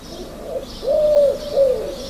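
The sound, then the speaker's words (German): Common wood pigeon cooing: a few soft, low, hooting coos, with the last two phrases clearer and louder than the faint opening notes, heard alone with no talk. “Ja, das ist nämlich die Ringeltaube. Das ist die Wildtaubenart, die hier bei uns am häufigsten vorkommt.”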